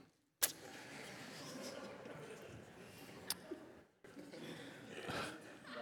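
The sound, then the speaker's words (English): Steady, faint road and engine hum fills a car cabin while driving, broken by a sharp click near the start, a couple of brief knocks later, and a short dip before the hum resumes. “I like to talk while I drive.”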